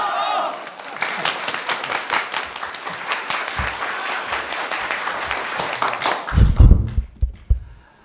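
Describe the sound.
Applause at a reunion of former sent-down youth welcomes a village party secretary as a guest. A voice comes briefly before the dense, crackling clapping, which builds and runs steadily for several seconds, then gives way to a man starting to talk.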